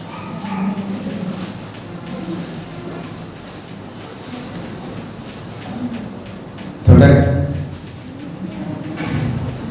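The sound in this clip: A dog barks once, a single sharp, loud bark that stands out abruptly over a steady low background with faint talk.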